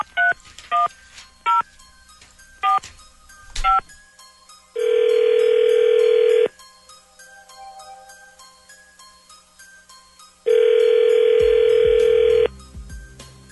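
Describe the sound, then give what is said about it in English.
Telephone keypad tones dialing a call at random: seven short touch-tone beeps in an uneven run, followed by two long, loud ringback tones separated by a quiet gap, with no talking. “Dialing at random. Okay, here we go.”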